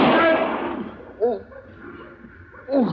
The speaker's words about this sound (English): Mr. Dillon, did you shoot him in the arm of purpose?